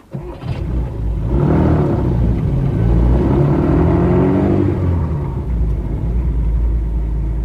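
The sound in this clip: A car engine starts and then accelerates away for the drive to the City. A steady, loud low rumble carries a rising engine note through the middle, then settles into a sustained drone.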